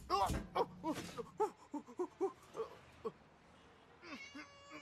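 A kitten meows in a rapid string of many short, bright cries, the first ones louder. They are followed by a pause and then a higher, drawn-out wail at the end.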